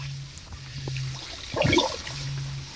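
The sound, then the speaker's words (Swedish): A kayak paddle dips into the water with one soft splash and a gentle trickle, faint over a steady low hum. “Mm, det är så härligt att höra de där paddelljuden.”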